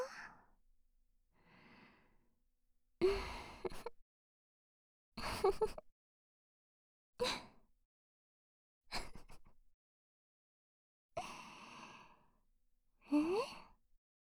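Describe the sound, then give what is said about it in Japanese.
Heavy breathing, mostly sighing exhales: a couple of faint breaths open, then six louder, rough breaths follow at roughly even two-second intervals, with no voice. “ほら、ゆっくり深呼吸。息がハーハーしてるの収まるまでこのままでいいよ。”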